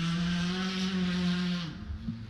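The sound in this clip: Mario Razo's car driving past on a road section, its engine a steady droning tone that drops in pitch near the end as the car goes by.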